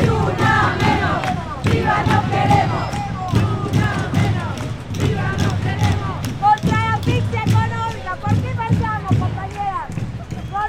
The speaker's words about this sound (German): So klingt es dann auf einer Demonstration.